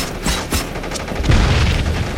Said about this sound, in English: Frag, cook it. 3 seconds or four? Don't cook the grenade.